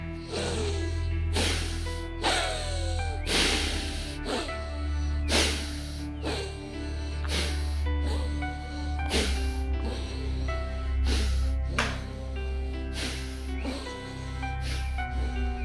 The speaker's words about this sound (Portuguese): E expira profundo. Só que com mais velocidade agora. Assim